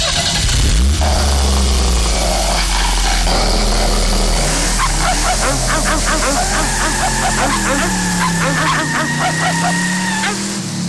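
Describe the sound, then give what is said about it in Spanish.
A car engine cranks and catches, then idles and revs with a low, steady drone while nearby dogs break into repeated loud barking over it, continuing until the end. “si entras en tu vehículo mientras los caninos están cerca, mientras no conduzcas, no te dirán nada. Pero desde que enciendes el motor,”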